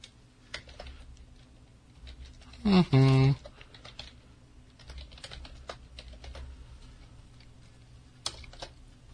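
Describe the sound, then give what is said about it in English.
Typing on a computer keyboard: sparse, irregular keystrokes click quietly throughout, with a louder brief sound partway through. “Hold on, I'll type it in there.”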